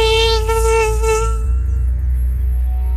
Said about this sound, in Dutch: dat je iedere nacht niet kunnen slapen omdat je achter zo'n mug aan zit te jagen die je eigenlijk gewoon per definitie nooit te pakken krijgt